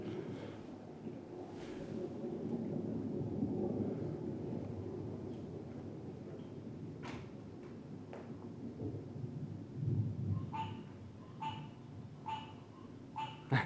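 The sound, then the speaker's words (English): Rolling thunder: a low, continuous rumble that stays fairly faint and even throughout, with a few short, high chirps near the end. “And the thunder rolls.”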